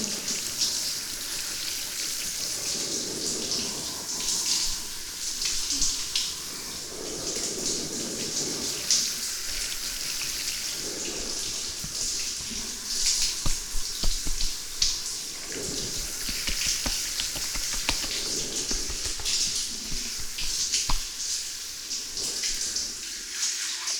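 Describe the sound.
Tap water pours to rinse foam away, a sustained hissing flow with slight surges and fluctuations over its length, running on without pause.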